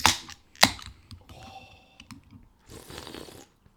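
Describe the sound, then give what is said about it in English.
A drink can is cracked open: two sharp snapping pops come near the start, then a longer soft hissing fizz, with no voices. “cans out. Crack it.”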